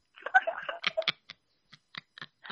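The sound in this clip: Typing on a phone: a short stretch of voice, then a few sparse, crisp taps spaced unevenly across the second half.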